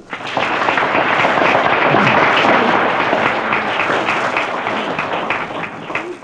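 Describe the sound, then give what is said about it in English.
An audience applauds for a Mexican orchestra brought from Mexico to Los Angeles. Dense, loud clapping rises quickly and holds steady throughout, then eases slightly near the end. “Let's give them a hand for bringing the Mexican orchestra from Mexico here.”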